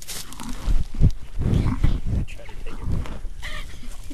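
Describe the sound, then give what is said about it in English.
A retired dairy cow about ten years old grazes on farm grass. The sound is a steady run of low, crunchy tearing and munching bites, with soft rustles between them. “That's Sally enjoying her lunch of grass on the Little's farm.”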